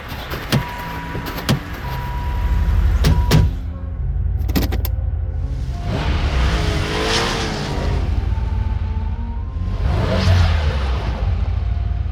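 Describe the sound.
A car engine revs hard as the car sits stuck in a snowbank, giving a loud, sustained roar that surges in a few waves. A couple of sharp knocks come before the roar.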